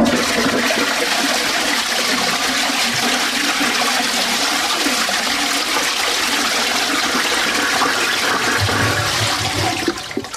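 A toilet flushing in a small toilet room, a loud, steady rush of water that runs unbroken for the whole stretch and eases slightly at the very end.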